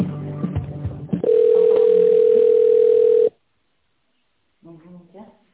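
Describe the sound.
A telephone line tone while a call is transferred: one steady, unchanging pitch held for about two seconds after a few brief sounds, then it cuts to silence before a voice briefly speaks.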